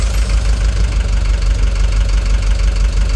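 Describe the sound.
A taxi's engine idling, a loud, steady low rumble with a constant fine knocking vibration that holds even throughout, with no voices.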